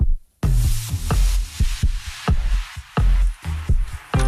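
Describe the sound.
A human heartbeat, that of a cartoonist, thuds loudly in a steady run of paired beats repeated many times, with no talk over it.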